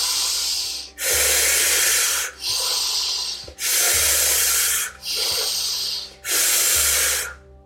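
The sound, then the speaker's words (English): Deep breathing during a breathwork exercise, with about five long, loud, hissing breaths following one another, each broad and airy with brief dips between them, and no talk. “Breathing in and breathing out. Just letting your body breathe for you, letting your body do the work.”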